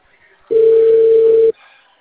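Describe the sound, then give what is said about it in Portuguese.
A WhatsApp video call ringing tone: a single steady, mid-pitched tone sounds alone for about one second, starting and stopping abruptly, with quiet on either side. “Se você quiser, a gente liga de vídeo pelo WhatsApp.”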